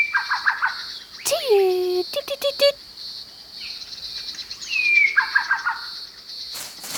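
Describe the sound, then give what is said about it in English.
A Bower's shrike-thrush, a songbird from near Cairns, sings short whistled phrases of a few quick descending notes, with squawking calls and brief chirps between them. “They're songbirds, and this species is only found in a small area near Cairns. Their song is made up of a quiet note and then four louder ones.”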